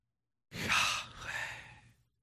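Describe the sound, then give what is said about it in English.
A single long breath, exhaled like a sigh to imitate the Hebrew divine name, flowing in two soft surges over about a second and a half, heard alone. “In the Hebrew, that's the sound of a breath.”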